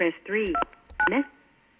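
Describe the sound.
Telephone dialing tones from an incoming call: two short bursts of steady electronic tone, mixed in with a voice over a brief stretch.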